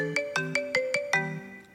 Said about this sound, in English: Hold on, my phone's ringing.